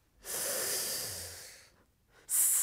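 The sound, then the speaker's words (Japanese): A deep breath in during a medical examination, a long, airy hissing inhalation lasting over a second that slowly fades, followed by a short pause and the sharp start of another breath. “숨을들이마시는소리가났습니다”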